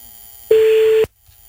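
Telephone line tone while a call is redialed: one steady, mid-pitched tone lasting about half a second over a hiss. It cuts off abruptly into near silence.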